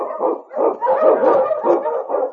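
Husky sled dogs bark and yelp on a trail through storm and snow, a few loud, overlapping bursts of barking and yapping following one another with short gaps, and no talk.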